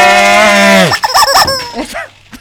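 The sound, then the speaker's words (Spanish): Squeezed chicken gives a long, loud honking squawk that drops off abruptly, followed by a few shorter, choppy squawks and clucks that grow fainter toward the end. “Vos apretá la gallina. Vos apretando el pollo.”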